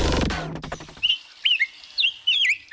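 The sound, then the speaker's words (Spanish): Rose-breasted grosbeak, a migratory songbird, giving a series of short, high, squeaky whistled notes with brief gaps between them, clear and alone. “El pico gordo degollado es un ave migratoria llamativa cuya presencia anuncia el paso de las estaciones a lo largo del continente americano.”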